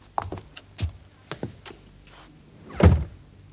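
Light knocks and soft thuds come as a blue notebook is thrown through a barely opened door onto a nearby chair. A heavier thump sounds near the end, and no one speaks.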